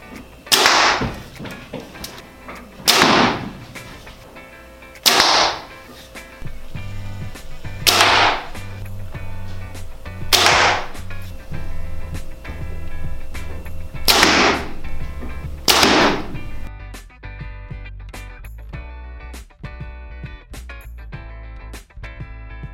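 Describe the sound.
Arrows shot from a Bear Archery Species bow: seven sharp, loud releases at uneven intervals, each a brief snapping thwack, over a steady low tone.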